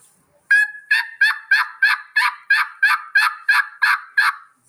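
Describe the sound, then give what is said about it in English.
Turkey hen yelps made with a mouth call by a hunter: a steady, evenly spaced series of many loud, raspy notes with no talk. “as you master a mouth call, you can change the tone of a mouth call. So if I've got two hens setting out in the field, I can make this mouth call sound like two different hens and then throw that gobble in there.”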